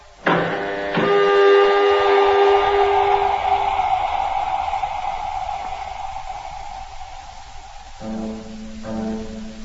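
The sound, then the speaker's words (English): A spacecraft airlock on a moon colony opens with a loud, sustained hiss and low droning, horn-like tones that slowly fade over several seconds, then give way to a lower steady hum. “Okay, Control. We're all set. You may let us out now. Airlock opening.”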